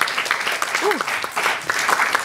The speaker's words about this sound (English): Another round of applause for that beautiful film that we just saw.